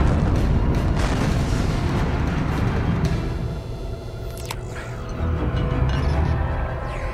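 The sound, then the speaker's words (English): An explosion set off by remote control, a loud, sustained, deep rumbling roar that fills several seconds, dips briefly midway and swells again, with no talk. “Malcolm the F3 beams back, he's got this little remote control and, and blows it up.”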